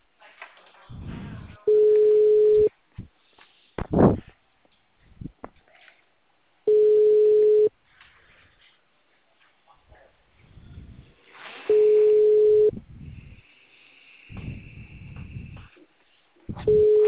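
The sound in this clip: A telephone ringback tone for an outgoing call: a steady, low-pitched beep about a second long repeats four times at even intervals. Softer rustling and other quiet noises fill the gaps between the tones.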